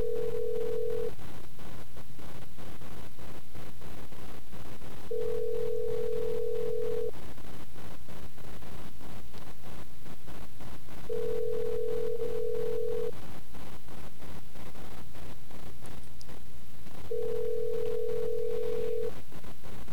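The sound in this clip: Ringback tone of a telephone call placed to a payphone. Four steady, low-pitched tones, each about two seconds long, are separated by long pauses over constant background noise.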